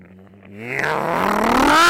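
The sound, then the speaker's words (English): A dirt bike revving up the road, its engine note climbing steadily in pitch and growing louder into a buzzing whine. “And every day, dude is on a friggin' dirt bike, just like skating up the road. So I hear, I'll be at the computer and I'll hear,”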